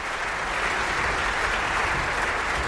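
Applause for the festival orchestra after a Götterdämmerung performance at the Bayreuth Festival: dense, steady clapping from a large audience, unbroken and even in loudness throughout.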